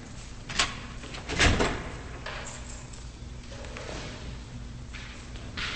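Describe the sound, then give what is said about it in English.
Locked prison doors open and close as a guard leads a man through them: a few heavy metallic clanks and thuds, the loudest early on, over a steady low hum. “She looks up as a guard leads Burke into the room through two sets of locked doors.”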